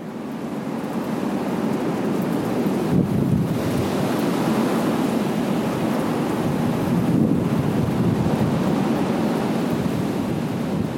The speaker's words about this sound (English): Well, the sound you're hearing is the wind outside my house, which I recorded just before sitting down to write this.